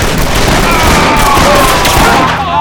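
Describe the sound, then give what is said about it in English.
Loud gunfire erupts in a dense volley during an ambush, the shots blurring into a continuous crackling roar without clear gaps. “When the torches the gun hands carried were ignited, Falcon and his men opened up.”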